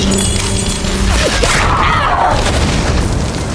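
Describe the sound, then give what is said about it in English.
A rifle shot and a spinning bullet bursting into shrapnel come as a loud, dense mix of booming and crashing that fills the whole clip without pause, with no speech. “He lifts the rifle, takes careful aim, and fires. The spinning bullet unravels and explodes,”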